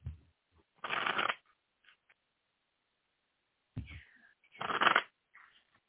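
Tarot cards being shuffled to pull a card for a reading. Two short, crisp bursts of riffling are separated by a quiet gap, and both are fairly soft.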